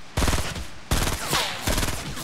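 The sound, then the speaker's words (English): Automatic gunfire in a first-person shooter video game: loud, dense bursts of rapid shots in a few sustained runs, each starting abruptly and continuing with steady rattling repetition. “Why are they shooting at me?”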